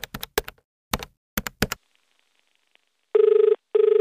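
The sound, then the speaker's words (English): An outgoing telephone call: several quick, sharp dialing taps come first, then a short pause, then two steady buzzing ring tones, the second cut off at the end. “Let me give her a quick call.”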